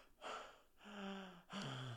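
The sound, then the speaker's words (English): A person imitates gasping for air from under a hot blanket, making three faint, breathy gasps in quick succession, each one rough and partly voiced. “I was heavy breathing, and then I just like open to the side and be like,”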